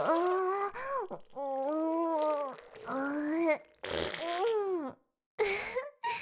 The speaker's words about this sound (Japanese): あたしは、ゲリうんこ汁、ぶっぴーって、恥ずかしい音。